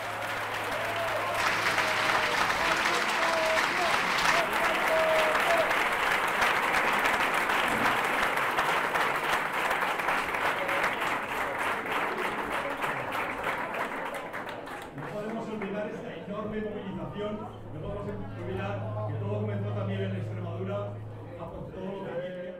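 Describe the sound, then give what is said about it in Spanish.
Applause from a crowd at a political party's headquarters on election night in Aragon: a loud, steady wash of clapping that thins later on, with a reporter talking over it throughout. “Va a tomar la palabra enseguida el candidato, oímos los aplausos.”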